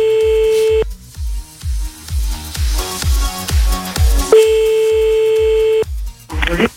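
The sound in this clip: Ringback tone of an outgoing phone call: a steady mid-pitched beep heard twice, first briefly, then for about a second and a half, over a rhythmic music bed with a thumping beat.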